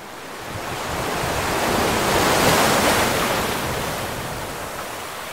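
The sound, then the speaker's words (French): Surf washes onto a beach by the sea as a broad, hissing roar that swells gradually to a peak midway and then slowly recedes. “C'est sympa de se promener sur la plage”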